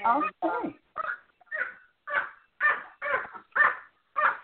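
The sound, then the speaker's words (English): An excited dog barks over a phone line, giving about nine evenly spaced barks in a steady rhythm at moderate loudness. “My dog is happy. I know. I heard that. Her dog is excited, too.”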